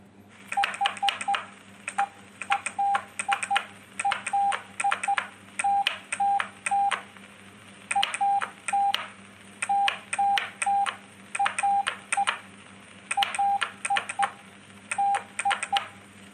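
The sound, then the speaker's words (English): Morse code beeps spelling out a phrase: steady mid-pitched tones in short and longer pulses, grouped into letters with regular gaps between them, over a faint low hum. “Four dots, that is H, then one dot, that is E, dash, dash dot dot”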